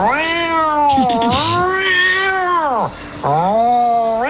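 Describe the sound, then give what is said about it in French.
Cats caterwauling while mating: loud, wavering, harmonic yowls that rise and fall in pitch, running almost without a break except for a short dip near the end, with no voices. “Ah, ça, c'est les chats qui ont des ébats.”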